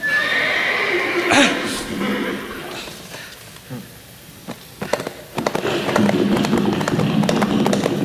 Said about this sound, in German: Oh, er reitet davon.